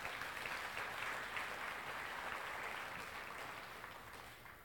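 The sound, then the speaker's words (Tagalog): A church audience applauds the Lord in an even, quiet wash of clapping that holds steady, then gradually fades toward the end. “Palakpakan natin ng Panginoon, mga kapatid.”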